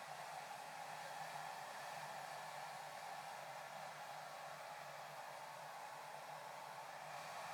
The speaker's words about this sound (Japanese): こうやって髪をかき分けて、うなじや生え際も優しく乾かしてあげてください。